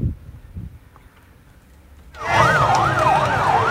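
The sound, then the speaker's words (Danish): Police sirens escort a funeral procession carrying a coffin through crowded streets of Buenos Aires. A loud wail repeatedly swings up and down in pitch, bursting in after a quieter, rumbling opening. “Argentinsk politi kom på overarbejde, da Diego Maradonas kiste skulle køres til kirkegården.”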